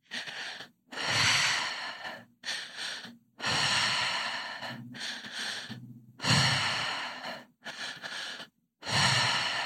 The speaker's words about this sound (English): And when you're ready, starting the breath pattern.